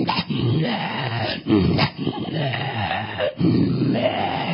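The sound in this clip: A voice imitates growling and groaning with a rough, guttural, sustained rumble. It comes in a few long, loud bursts with short breaks between them.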